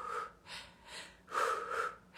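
A person demonstrates a race breathing rhythm with a faint series of short, forceful breaths in and out, like gasps and snorts, in an even pulsing pattern.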